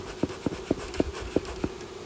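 Honeybees buzzing during a hive inspection on a hot day: a steady, low, even hum runs throughout, with six brief soft taps falling at fairly regular intervals over it.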